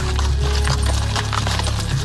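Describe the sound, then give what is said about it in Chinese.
Hooves clip-clopping from an approaching horse-drawn carriage, a busy, rhythmic clatter with a woody rattle over a dense, steady background rumble. “忽然马车朝这边驶来”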